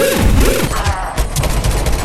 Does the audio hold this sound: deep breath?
no